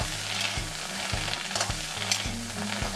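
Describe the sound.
Dry sizzle of pounded grilled Spanish mackerel paste with lemongrass, garlic and kaffir lime leaves, stir-fried in a pan without oil. Steady crackling runs under regular scraping strokes roughly twice a second.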